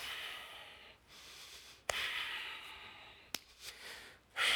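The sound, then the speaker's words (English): Heavy, angry breathing through flaring nostrils: a few long, noisy breaths, with sharp sniff-like catches at a couple of points. The breathing is moderately loud, and no one speaks. “my nostrils start to flare. I start breathing. I breathe heavy anyway,”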